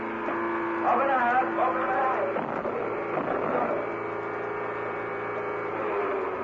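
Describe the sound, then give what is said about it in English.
The low-pressure blow of a surfacing U.S. Navy submarine gives a steady, droning rush of air over a constant low hum, holding level for several seconds with a brief voice near the start. “To our knowledge, this is the first time a radio audience has heard the actual commands and sounds from a submarine.”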